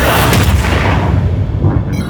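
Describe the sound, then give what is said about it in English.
A huge explosion blast roars through the whole clip as one dense, sustained rumble with a heavy low end. It stays loud throughout and thins slightly toward the end. “You no longer have enough time to escape the blast”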